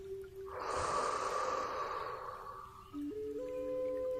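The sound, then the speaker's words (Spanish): A long, deep exhale after an inhale: a soft, airy rush of breath that swells and slowly fades over about two seconds, over a quiet, sustained musical tone. “Inhala. Y suelta largo y profundo.”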